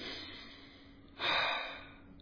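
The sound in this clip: A person takes a single quick intake of breath, a soft airy gasp that swells and fades over about half a second, faint against a quiet background hiss.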